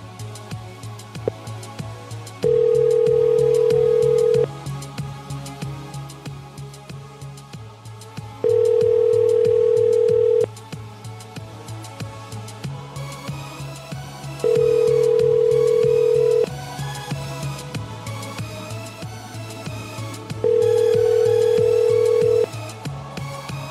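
A ringback tone sounds on an outgoing phone call: four evenly spaced rings, each about two seconds long and separated by longer gaps, over a continuous low hum.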